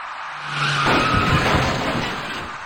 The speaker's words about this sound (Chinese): 一辆左转弯的白色小客跟这位骑车人发生了相撞事故。